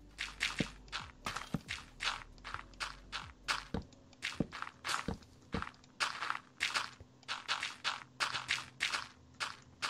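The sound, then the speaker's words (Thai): Dirt and gravel blocks being broken in Minecraft, heard as many short crunchy hits in a quick, fairly even rhythm, loud and clear with no talking. “เราทุบแค่ดินกับตัวกราเวลก็พอนะ”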